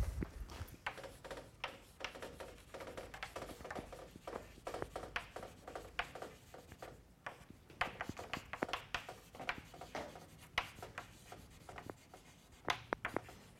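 Writing during a mathematics lecture: many quick scratchy strokes, taps and rubs follow one another unevenly and stay faint throughout, with short pauses between bursts and no talk.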